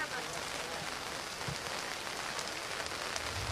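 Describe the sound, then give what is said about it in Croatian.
Heavy rain pours down outdoors at a memorial complex, a steady, dense hiss that stays loud and even throughout. “u ovim momentima jak pljusak ovdje u kompleksu Veljaci”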